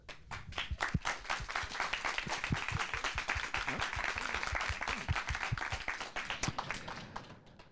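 An audience applauds to thank the musicians, with many overlapping hand claps in a fairly faint, even wash that holds steady from start to finish.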